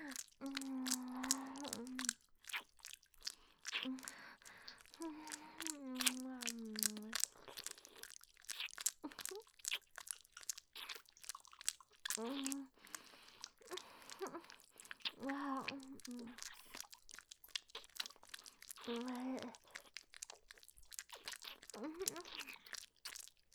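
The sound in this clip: Someone chews and eats while tasting food, making many quiet crunchy bites and wet smacking chews over about twenty seconds, broken by short voiced hums or murmurs.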